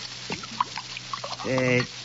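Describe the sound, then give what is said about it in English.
A drink being poured into a glass, a brief soft trickle of liquid with small clinks, followed by a short voiced sound. “Pour me another drink.”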